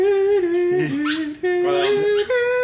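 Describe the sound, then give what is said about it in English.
A dog whimpers and yips in a park, giving loud, high, nasal whines with a few wavering dips and brief sharper yips between them. “that's a dog.”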